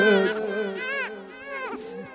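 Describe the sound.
A baby crying in long, wavering wails that rise and fall in pitch, with a strained, tremulous tone and no pause across the short stretch.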